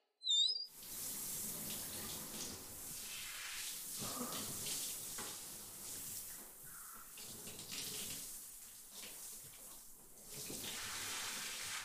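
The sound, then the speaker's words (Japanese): Water rinses shampoo out of hair: a steady, broad rush of running water flows for about eleven seconds after a brief sound at the very start, with no one talking. “ほら、頭、きれいに洗えたから、流しちゃうね。”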